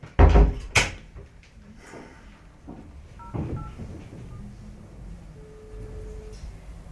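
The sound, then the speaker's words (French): A door shuts with a heavy thud at the start. After a pause come a few faint, short telephone keypad tones as a number is dialled, then one longer steady tone. “vous me laissez vous fermer la porte parce qu'il faut que je donne un coup de fil.”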